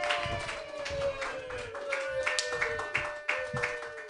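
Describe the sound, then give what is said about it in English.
Audience applause for a comedian being introduced at a comedy show: a dense, steady wash of many hands clapping that carries on without a break for the whole stretch. “Put your hands together for your first comedian, everybody.”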